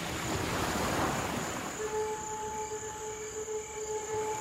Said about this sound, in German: Eine schöne Welle hat er gerade. Sehr gut.